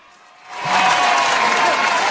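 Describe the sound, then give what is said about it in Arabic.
An audience applauds after a quiz answer. The clapping starts from near quiet, swells quickly within the first second, then holds as a dense, steady patter of many hands. “لا برافو يلا نسقف له كلنا.”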